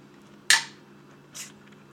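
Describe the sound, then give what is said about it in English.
A shaken can of carbonated drink is opened with a sharp pop and a quickly fading fizzy hiss, followed about a second later by a second, softer hiss. “Shake it up. Get the carbonate. It explodes.”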